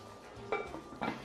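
A lid is set onto a cooking pot over a wood fire. It makes two quiet metallic clinks about half a second apart.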